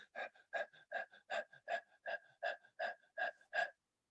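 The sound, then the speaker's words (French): Rapid breathing through the mouth in a fast, even rhythm: many short, sharp, breathy puffs, about three per second, soft and steady throughout with no talk. “la respiration qu'on va faire par la bouche, ça va être une respiration qui va être très rapide, dans le sens que on va inspirer sur le rythme suivant”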